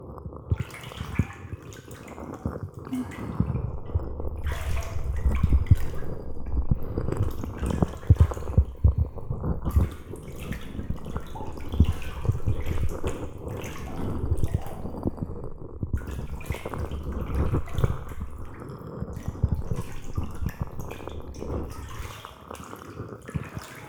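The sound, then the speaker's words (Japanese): Water moving gently in a hot bath as someone soaks, with continuous soft sloshing and dripping throughout, steady and moderately quiet, with no voices. “私もお湯に浸かってるのでいい気持ちです。”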